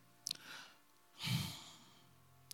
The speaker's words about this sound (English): Take a deep breath.